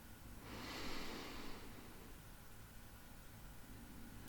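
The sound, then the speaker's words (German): A deep breath drawn into the belly during a guided breathing exercise: one soft, airy inhale that swells for about a second, then fades into a faint hiss. “Jetzt atme tief in den Bauch ein und spüre, wie sich deine Bauchdecke dabei hebt.”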